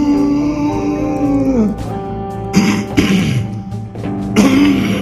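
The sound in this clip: Someone with a froggy, hoarse throat clears it loudly in a few rough, gravelly bursts with brief voiced rumbles between them.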